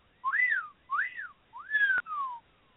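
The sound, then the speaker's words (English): Whistled call made by a person at night, trying to draw a response: three loud, clear tonal phrases, the first two arching up and down, the last a longer falling glide, with short gaps between them. “One night I was attempting a whistling call or cry,”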